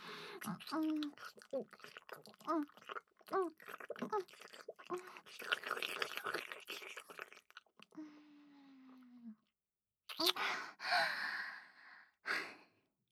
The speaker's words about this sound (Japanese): 先生のファーストキス、ごちそうさまでした。キスはこれくらいにして